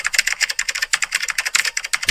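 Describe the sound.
Rapid keystrokes from someone typing emails on a computer keyboard: many quick, irregular clicks in bursts, crisp and fairly loud, with no talk.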